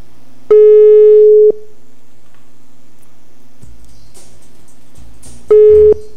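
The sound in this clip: A telephone call is placed and rings out as two steady, level electronic tones: one lasting about a second, then a shorter one after a gap filled with faint clicks and handling noise.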